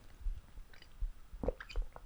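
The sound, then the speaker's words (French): Faint mouth sounds of someone sipping water from a glass, with several soft low gulps and swallows and light wet clicks spaced across the moment. “Alors, en même temps, je vais prendre un petit coup d'eau. J'ai prévu mon petit verre d'eau”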